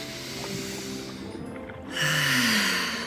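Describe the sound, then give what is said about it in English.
Slow, controlled breathing paced at eight breaths a minute to ease motion sickness. A long, soft, airy breath is followed by a louder, fuller one, with no talk over it. “Try breathing 8 times every minute. Like this.”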